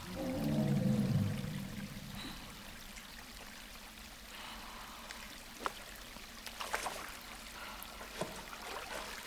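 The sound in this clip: Water in a small pond among rocks as a person dives under the stones: a steady rush of flowing water, broken by a few light splashes toward the end.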